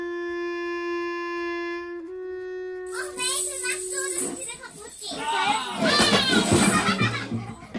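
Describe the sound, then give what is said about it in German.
Children shout and yell loudly over one another in the second half, a steady sustained tone sounding alone before the excited voices break in and grow louder. “ihr sollt nicht so schreien.”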